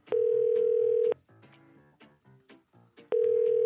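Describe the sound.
A telephone line tone plays while a call is being connected. A loud, steady mid-pitched tone holds for about a second, quieter harmonic sounds follow, and then the same tone returns at the end.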